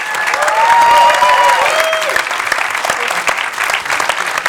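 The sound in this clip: An audience applauds to welcome film director Damien Chazelle, a dense, steady clapping with a few whistles early on.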